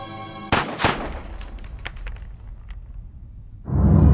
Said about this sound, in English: A shocked look strikes Wanda's face as Ludlow fires two shots into Wanda's chest at point-blank range.